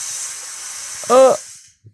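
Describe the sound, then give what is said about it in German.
Steady high hissing from a coffee machine that has just made coffee, fading away after about a second and a half, with a brief voice breaking in midway. “Und die Kaffeemaschine macht irgendwas. Wir haben uns gerade noch einen Kaffee gemacht und die pfeift da hinten.”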